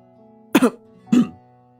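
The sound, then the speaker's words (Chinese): Two short, throaty coughs from a man clearing his throat awkwardly, the second slightly longer, with a quiet pause between them. “叶世祖也不自在的咳了一声，他的话说的太满了。”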